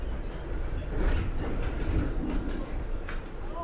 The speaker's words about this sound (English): as you can hear, the track probably isn't the best bit of track I've ever travelled on, because everything's rattling away.